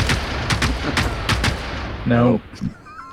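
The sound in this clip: Video game gunfire crackles in a series of sharp shots over a steady noisy background, with several shots coming in quick pairs. A brief voice breaks in near the end.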